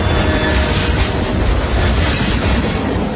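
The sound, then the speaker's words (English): Rumbling roar of a CSX freight train rolling along the rails, a dense, steady wash of noise throughout with no voices. “Yep, that's the sound of a CSX train doing its part to move the economy forward.”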